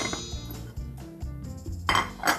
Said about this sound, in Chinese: 好，我们就把食材都加进来。